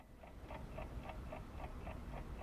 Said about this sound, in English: She pulls an alarm clock out from among the covers and stares at the hands.